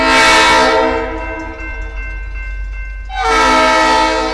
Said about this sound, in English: Federal rules require engineers to sound their horns four times for a total of 15 to 20 seconds as they approach street-grade crossings without gates.